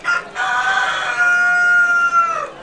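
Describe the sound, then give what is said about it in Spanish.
A rooster crows once: a single loud, drawn-out cock-a-doodle-doo with a strong, bright tone that holds steady and then trails off at the end. “haupe tevo petein gallo o sapukai”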